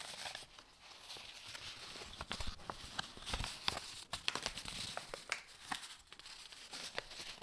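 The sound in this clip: Paper-like packaging of a makeup remover rustles and crinkles as it is handled, giving many soft, irregular crackles and taps at a low level.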